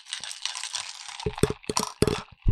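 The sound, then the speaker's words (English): A pina colada being drunk: a long, noisy, airy slurp, then a run of sharp rattling clicks and knocks in quick bursts, with short gaps between. “To let him know I'm drinking a kick-ass pina colada that Adrian made.”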